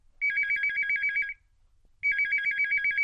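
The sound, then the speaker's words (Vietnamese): A telephone rings as a radio call is connected, an electronic warbling ringtone heard alone in two long bursts separated by a short pause. “ngay bây giờ chúng tôi sẽ kết nối điện thoại đến với MC 2 Mạnh Đạt.”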